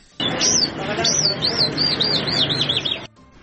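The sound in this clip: Birds chirp at a bird market in Kandahar, with quick, high, repeated tweets over a dense low murmur and voices. The sound starts abruptly and stops abruptly about three seconds later.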